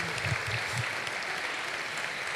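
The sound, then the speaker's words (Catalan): Applause for a carnival troupe: dense, even clapping from a crowd, holding steady throughout without pauses. “O sigui que demano un fortíssim aplaudiment per ells, perquè s'ho mereixen.”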